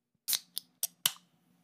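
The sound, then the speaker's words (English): Cracking open a can of Diet Coke: four crisp metallic clicks in quick, even succession, fairly faint, over a low steady hum. “one of my top 10 favorite sounds, the sound of cracking open a can of Diet Coke.”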